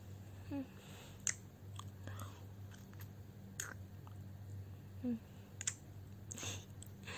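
Soft kissing, with faint wet lip smacks and mouth clicks scattered sparsely over a low, steady hiss, and no talk.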